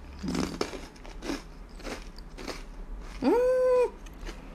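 Crunchy bites into a honey-fried rice cracker snack, a run of several sharp, crackly crunches at a moderate level, followed by a short, steady tonal hum.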